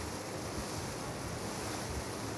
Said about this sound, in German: Die Fähre ist unterwegs vom Ost- zum Westufer.